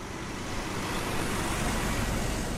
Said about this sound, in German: Am Volkspark in Potsdam fahren in einer langen Reihe Betonmischer um Betonmischer an.